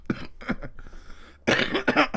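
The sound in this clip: Coughing and throat clearing from someone who has got something stuck in the throat. A few rough bursts come first, then a louder, harsher fit of coughs.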